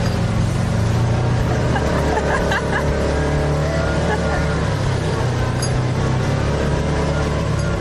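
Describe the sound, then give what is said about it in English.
Engine of a four-wheel drive vehicle climbing a steep off-road trail, a steady, loud rumbling drone that runs unbroken throughout while people talk over it. “This is the ultimate four-wheel driving. Oh, yes, we are going up this. There we go.”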